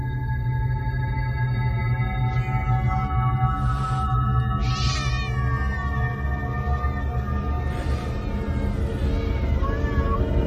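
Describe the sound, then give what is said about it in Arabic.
A black cat inside a car meows several times, giving high, wavering cries over a loud, steady low hum. “دخلت ازاي القطط دي معرفش. وقفت تاني بحاول اركز، لقيتها هي قطة واحدة لونها اسود.”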